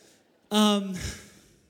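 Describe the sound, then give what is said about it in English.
Heavy breathing as a speaker catches his breath during a talk: near-quiet, then one loud, voiced exhale that trails into a softer breathy rush. “I got to catch my breath here.”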